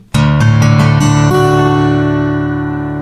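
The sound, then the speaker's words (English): An in-tune acoustic guitar plays a D chord that includes the low bass string. Its notes enter in quick succession, then ring out together and slowly fade. “If you're in tune with me, your D chord, including the low bass string, should sound like this.”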